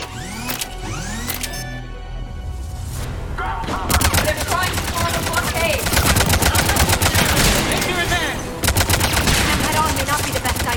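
Rapid gunfire from a squad battle in a video game, with dense machine-gun-style bursts firing almost continuously. The shots are loud and packed together, swelling further after the first few seconds and keeping up to the end.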